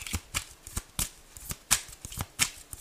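Tarot cards being shuffled to draw a card: a series of short, soft riffling bursts at an uneven pace, quiet and with no other sound.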